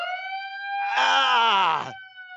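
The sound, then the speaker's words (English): An alarm sound effect sounds as a steady, high electronic tone with a loud, harsh buzzing blare swelling over it in the middle before dropping away and leaving the tone alone again. “that alarm that you just played”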